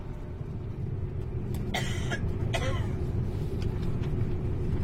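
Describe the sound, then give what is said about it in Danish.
Steady low rumble of a Danish IC3 train interior while riding toward Aarhus, a constant droning roar with a few brief rattling clicks rising above it. “Vi kører i et IC3-tog på vej til Aarhus”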